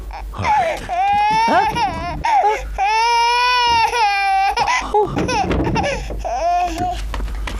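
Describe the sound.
A baby cries in loud, drawn-out wails with wavering pitch, broken by short gasps and whimpering sobs.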